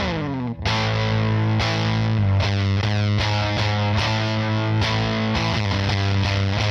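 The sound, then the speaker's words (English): Electric guitar played through a fuzz pedal gives thick, buzzing distorted chords. Several strummed chords ring out and sustain in turn, each one struck cleanly before the next, with no voices. “So that's more of like what it offers as a fuzz sound.”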